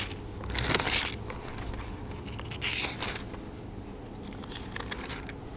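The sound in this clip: Bible pages rustle as they are turned, in a few soft bursts of papery shuffling and crackling over low background noise, with no talking.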